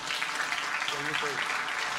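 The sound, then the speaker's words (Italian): Fairly quiet applause at a ceremony honoring the head of Italy's Civil Protection in Liguria: a soft, steady patter of many hands, with a voice briefly heard over it. “E allora facciamo un applauso anche”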